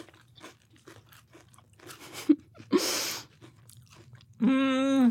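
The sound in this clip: Crunching and chewing of a peanut butter chocolate candy bar, a Twix-style bar made with Reese's, with soft repeated chewing clicks and one loud, dry crunch burst in the middle.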